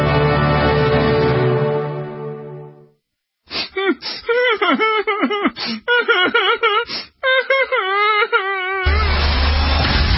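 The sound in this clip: Whining, whimpering wails from a radio show intro sound effect, a run of short moaning cries with wavering, bending pitch. A sustained tone comes before them and a loud noisy burst follows.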